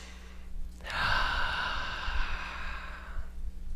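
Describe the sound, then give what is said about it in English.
A single long, deep breath taken during a guided relaxation exercise: a soft, airy rush that swells and holds for about two and a half seconds before fading, heard on its own with no talking. “Nice deep breath.”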